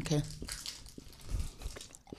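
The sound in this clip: Someone bites into a sweet and chews it, with a faint crunch followed by soft, quiet chewing. A voice sounds briefly at the start.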